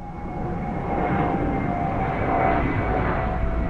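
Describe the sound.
An airplane at Logan Airport in Boston, a steady, loud engine roar with a thin whining tone that holds throughout and swells slightly after the first second.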